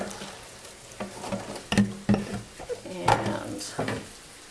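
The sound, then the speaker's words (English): A salad spinner of rinsed lettuce is dumped out in a kitchen: a few hollow plastic clunks and knocks, with scattered rattles and light clatter between them at moderate loudness. “Okay, dumping out the salad spinner.”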